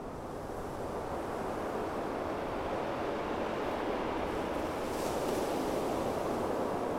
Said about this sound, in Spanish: En Mar del Plata siempre suena el mar.